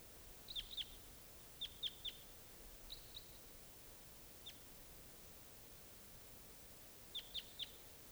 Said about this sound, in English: Start recording a wild bird.